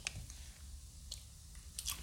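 Someone chews sour trick-or-treat candy, making a few crisp, crunchy bites followed by soft, squishy mastication. The sounds are faint and close, with no talking.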